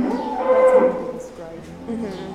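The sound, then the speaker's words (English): Dairy cows from a lactating herd, just milked, moo in deep, drawn-out calls. One long, loud moo is followed by lower, overlapping lowing and a shorter call near the end. “These are the girls that give milk. These are the lactating herd.”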